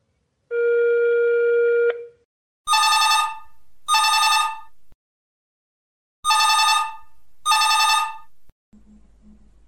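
A telephone ringing on an outgoing call: a steady tone comes first, then four loud bursts of ringing fall in two pairs.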